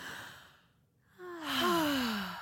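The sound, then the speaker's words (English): A deep breath, airy and hissing at first, then after a short hush a voiced sigh whose pitch slides downward as the breath is let out, heard alone with no talk. “This is your weekly reminder to take a deep breath.”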